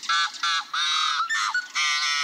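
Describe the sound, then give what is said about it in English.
A yellow-headed blackbird at Rice Lake State Park in Minnesota gives a series of loud, gruff, nasal growls and toots, harsh buzzy notes in close succession with brief gaps. “In the Midwest, at Rice Lake State Park in Minnesota, a yellow-headed blackbird offers its gruff repertoire of growls and toots.”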